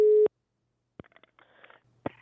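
Telephone line tone during a call to a zoo: a single short, steady tone at the start, then near silence broken by a few clicks and faint line noise.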